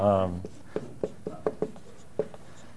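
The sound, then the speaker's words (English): Writing on a board in green: several short taps and scrapes at uneven intervals, following a brief voice at the start. “let's put it up here on the board. I'll write it up here in green.”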